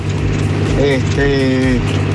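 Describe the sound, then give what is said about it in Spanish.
A tractor engine runs while a field is being sown, giving a steady low droning hum throughout, with a voice talking over it. “Arriba del tractor, estamos sembrando.”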